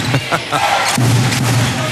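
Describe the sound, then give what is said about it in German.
A basketball bouncing on an indoor hall floor during a game: two dull thumps at the start, then a voice talks over the noisy hall. “wer von euch schon mal beim Basketball war, der kennt das. Die Defense, die Verteidigung wird heftig angefeuert, wenn der Gegner den Ball hat.”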